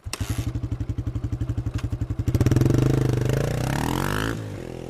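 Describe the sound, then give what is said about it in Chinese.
A high-performance motorcycle heads onto a highway, its engine first chugging in a steady pulsing rhythm, then surging louder with a rising, revving roar before easing off near the end. “雷猛从车库里挑了一辆性能最好的机车，全副武装后便开上了高速路。”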